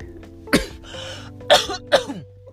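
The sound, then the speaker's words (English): Someone clears food stuck in their throat with three rough, forceful rasping bursts, each separated by short gaps. A deep, hoarse texture runs through each burst, with no talking alongside. “No, I don't have the coronavirus. I just have some food that was stuck in my throat, and I was trying to clear it.”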